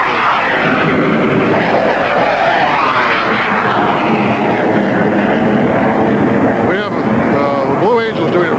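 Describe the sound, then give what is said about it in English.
Two aircraft fly simultaneous loops at an air show, one with its landing gear up and one with it down. Their engines make a continuous loud roar with slow, sweeping shifts in pitch. “Now we have two aircraft doing simultaneous loops. One of the aircraft is clean, has all its landing gear up. The other one is dirty, has the landing gear down.”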